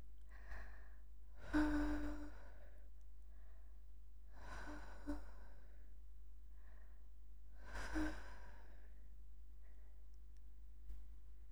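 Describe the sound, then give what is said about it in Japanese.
Gentle blowing into a listener's ear comes as a few soft, breathy puffs, faint and airy, spaced out over several seconds with quiet between them. “弟くんのお耳を、ふうふうしちゃおっと。”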